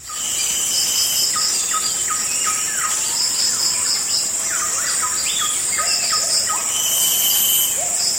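Shrill, continuous buzzing from cicadas dominates a natural forest chorus. Many short rising whoops from gibbons repeat beneath it in a busy, overlapping pattern that stays steady and loud throughout.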